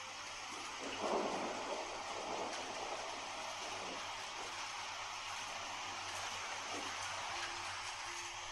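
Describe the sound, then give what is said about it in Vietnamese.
Heavy rain pours steadily during a thunderstorm, a dense, continuous hiss with a low rumble of thunder swelling early on. “Từng đợt tia chớp đột nhiên làm bầu trời trắng lóa lên từng đợt. Từng giọt nước rơi trên mặt, lạnh lẽo, làm cho hắn tỉnh táo hẳn lên. Tiếp theo một trận mưa lớn sầm sập đổ xuống.”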